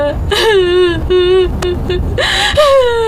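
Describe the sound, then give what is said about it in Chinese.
A person crying loudly, with wavering, whimpering wails broken by sharp gasping breaths between the sobs. “再哭也扶不过来啊。啊，别哭了啊。”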